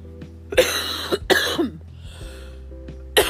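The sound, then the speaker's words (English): A smoker's cough: a cluster of harsh, raspy coughs in quick succession, then a pause before one more loud cough. “excuse me, smoker's cough.”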